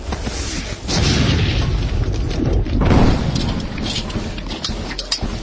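Gunfire in an audio drama: heavy, booming bursts with a deep rumble, overlapping into a loud, continuous barrage with sharper cracks scattered throughout and no clear gaps between shots.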